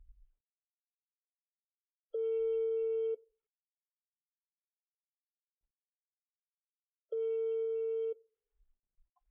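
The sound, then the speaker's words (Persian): Telephone ringing tone heard while placing a call: two steady one-second electronic rings separated by a long silent gap. “بریم با آقا مجید تماس بگیریم”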